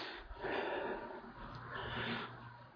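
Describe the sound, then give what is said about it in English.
A speaker pausing mid-talk to take a breath: a soft, airy intake with a slight snort-like rasp that lasts a couple of seconds, faint and with no words. “I'm going to take a breath here for a minute.”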